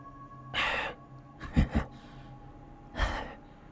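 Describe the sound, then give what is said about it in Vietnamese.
A person groans deep in the throat, a few rasping, breathy exhalations with a gravelly, strained edge, separated by short pauses. “Âm thanh gì không rõ, nghe cứ như là tiếng người đang rên khừ khừ trong cổ họng vậy.”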